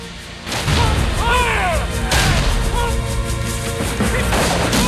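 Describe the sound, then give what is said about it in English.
Cannon fire during a battle at a fort: loud booming blasts over a continuous rumbling din, with whistling, whooshing sweeps passing overhead and several sharp crashing impacts. “The fuse is lit and the cannon roars.”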